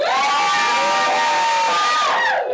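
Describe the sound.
Audience of several hundred guests cheering loudly at a live show in a comic shop, a sustained wash of voices with whistle-like whoops that holds steady and eases slightly at the very end.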